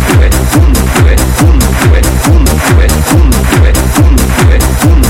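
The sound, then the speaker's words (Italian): A recorded march plays loud and continuous, driven by many steady, evenly spaced drum beats in a regular two-beat rhythm. “Ascoltiamo questa marcia e osserviamone il tempo e il ritmo. Fate però attenzione ai colpi del tamburo.”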